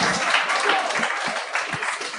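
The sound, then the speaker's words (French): Audience applause at a French-language comedy Q&A for an audience member who stands to ask a question. The clapping is loud and dense, with voices mixed in and several low thumps. “Devrait t'applaudir.”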